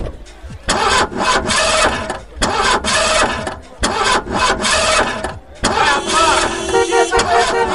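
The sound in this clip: Engine of a powerful sports car of nearly 300 horsepower, like the one in Magnum, starting and revving in loud surging bursts with short gaps, then settling into a steadier running tone.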